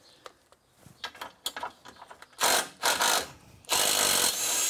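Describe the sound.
Metallic clicking and ratcheting from screws being worked loose on a dirty machine left half-cleaned since last year: scattered light clicks first, then a few louder, rasping bursts of grinding mechanical noise.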